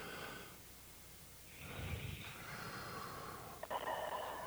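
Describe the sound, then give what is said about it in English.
A person takes a very deep breath as a relaxation exercise. The breath is slow, airy and drawn out, and stays faint and breathy over several seconds. “right now, I would ask the listeners to just experiment by taking 3 very deep breaths. All right, let's do that. Here's one.”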